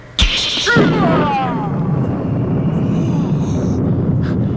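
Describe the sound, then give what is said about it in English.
A fire-from-heaven sound effect: a sudden sharp blast, then a sustained loud roaring rush, with a few whistling tones sweeping downward just after the blast. “if I am a man of God, then let fire come down from heaven and destroy you.”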